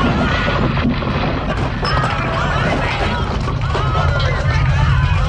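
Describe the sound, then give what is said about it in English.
Buildings, including the Capitol Records tower in Hollywood, crumble in a 1974 earthquake disaster film: dense, loud crashing and rumbling that roars on unbroken throughout. “That's the sound of the Capitol Records and other Hollywood buildings crumbling in the 1974 movie Earthquake.”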